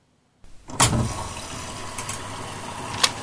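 A washing machine restarting its delicate 30-degree wash programme: a sharp click, then a steady rush like water filling in, with a few faint clicks later on.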